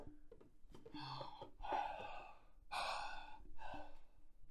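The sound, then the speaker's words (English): A person breathes in and out a few times, each breath soft, airy and unhurried. The breaths are faint, with no talk over them. “what am I doing? Oh, I'm breathing.”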